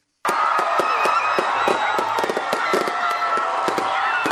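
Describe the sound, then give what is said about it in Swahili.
Fireworks bursting over a city for New Year celebrations, a dense, continuous crackle of many sharp pops and bangs in quick irregular succession, loud throughout with a steady roar beneath. “Ni milio ya fataki, ishara ya makaribisho yaliyonoga ya mwaka 2016 na kuupa mkono wa kwaheri mwaka 2015.”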